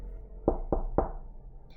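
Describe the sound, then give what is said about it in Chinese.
Three quick knocks on a door, evenly spaced and sharp, heard alone over a quiet background. “敲门声的响起，小猪一开门”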